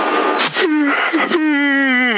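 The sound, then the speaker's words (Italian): A drawn-out yawn comes over CB radio, thin and noisy at first, then swelling into a long voiced, moan-like tone that wavers and sinks slightly in pitch at the end. “Secondo sbadiglio, mamma mia, abbi pietà.”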